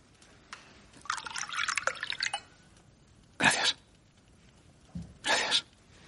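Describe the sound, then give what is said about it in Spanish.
Red wine poured from a bottle into a glass: a faint, trickling pour lasting about a second, followed later by two short, noisy bursts. “Pauline le muestra una botella de vino tinto. Al verle acerca su copa, ella le sirve.”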